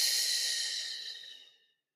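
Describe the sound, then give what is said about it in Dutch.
A slow, steady exhale during a relaxation breathing exercise. The soft, airy hiss holds level, then fades out over under two seconds with no voice. “Vul mijn buik tot diep onderin met zuurstof. En adem langzaam uit.”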